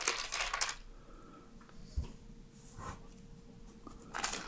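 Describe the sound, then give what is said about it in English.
Pages of a Bible being turned, a few soft, faint papery rustles separated by quiet stretches. “I'm turning pages, I hope you can hear it.”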